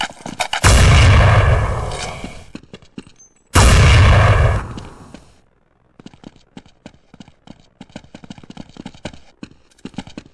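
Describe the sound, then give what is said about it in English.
Bazooka fire in a video game: two heavy, loud blasts, each trailing off over a second or more, followed by a long run of many sharp, rapid shots and clicks at lower volume. “Hey, cover me, I'm about to get my bazooka.”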